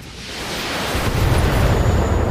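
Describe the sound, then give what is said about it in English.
An enemy Locust mech fires LRMs in a video game, producing a deep, roaring rumble that swells gradually in loudness and stays thick and noisy throughout, with no voices. “The enemy locust fires some LRMs, but nothing really happens.”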